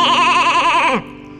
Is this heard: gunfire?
no